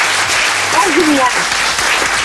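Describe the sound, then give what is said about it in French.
Loud studio audience applause on a French TV game show after a contestant wins 1000 euros: a continuous, even wash of clapping, with a presenter's voice briefly heard under it. “Bravo, vous pouvez applaudir.”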